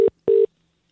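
Skype call dialing and connecting tone: two clean electronic beeps at a steady mid pitch, a short one followed by a longer one, with silence after and no talk.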